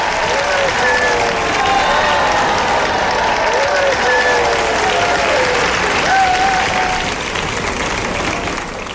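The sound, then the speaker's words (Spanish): Loud, sustained applause from an audience at a Spanish-language show, dense and unbroken from start to finish, with crowd voices mixed into the clapping. “Vamos a enviarles un fuerte aplauso.”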